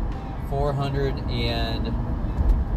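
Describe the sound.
Low rumbling road and engine noise from a car being driven hums steadily beneath a person talking throughout.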